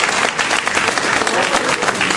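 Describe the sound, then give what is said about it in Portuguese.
A church audience breaks into vigorous applause after being urged to clap hard, producing a loud, dense, continuous patter of many hands that barely dips for the whole stretch. “E agora vocês vão dar aquela melhor salva de palmas que vocês não deram até hoje ainda. É para arder a mão, cadê? É para arder a mão.”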